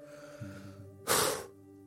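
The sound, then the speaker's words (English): A deep breath is taken during a guided meditation: one short, breathy rush of air lasting about half a second, heard over soft sustained background tones. “But let's say everybody, let's take a correct collective breath.”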